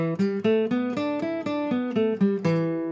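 E minor pentatonic scale on guitar, one octave in the middle-of-the-neck position: about ten clean plucked notes in a steady, even rhythm, each ringing briefly into the next, played alone.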